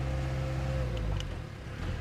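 Jeep engine driving along a dirt farm track on Mallorca: a steady, loud low rumble with a faint humming tone and no talk.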